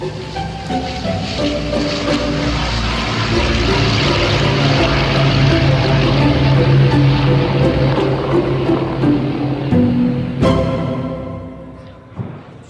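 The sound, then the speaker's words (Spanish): An airplane flying to Barcelona drones steadily with a loud, sustained engine hum and a low tonal drone. The sound fades out near the end. “Contra su voluntad y como un desafío, Franco se sube a un avión para llegar a Barcelona y despedir a Eva.”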